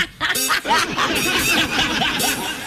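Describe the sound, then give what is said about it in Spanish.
A person imitates a chicken's call, pretending to be a pet-like animal. The voice gives a few short, high, nasal clucking and squawking sounds in a quick run, with harmonic, bird-like tones. “Hola, yo soy un Terian. Me creo un pollo.”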